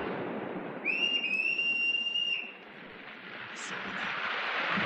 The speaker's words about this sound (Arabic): وايه الامارة؟ صفارة البحارة.